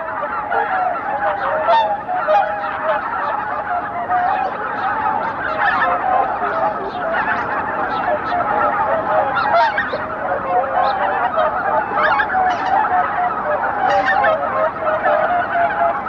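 Many geese honk in a dense, loud, unbroken chorus over a fog-covered lake in Japan at half past six in the morning. Overlapping calls keep the sound busy and steady for the whole stretch, with no talking.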